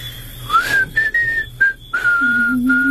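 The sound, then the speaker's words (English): A person whistles alone: a clear, loud opening note slides upward, then a few short, steady high notes follow with brief breaks, ending on a lower held tone. “Will you show me how to do that? What, whistle?”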